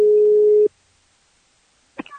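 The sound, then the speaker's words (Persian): A single steady telephone line tone sounds as a woman places a call to a TV news station. It holds one mid pitch for under a second, cuts off into silence, and a short burst follows at the very end. “در نتیجه یه خانومی بلند میشه میره اونجا و بعد زنگ میزنه به صدا و سیما.”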